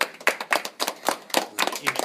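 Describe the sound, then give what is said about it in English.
An audience claps for a speaker after a talk about brain science: many quick, uneven claps from a small group, brisk and fairly loud, with no voices over them. “Great, give her a clap.”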